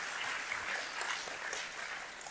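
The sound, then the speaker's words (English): Applause from a church audience giving a clap offering during a sermon: dense, steady clapping at an even level throughout, with no voices. “Let's give a Lord a clap offering for that, right?”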